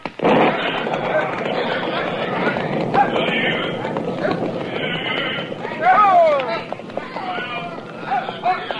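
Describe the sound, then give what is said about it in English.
A cattle herd is driven through an opening in a wire fence, heard as a continuous, busy rumble of hooves with horse whinnies and voices calling over it. “Now bunch the cattle in this way and start them through the fence as soon as I open the wire.”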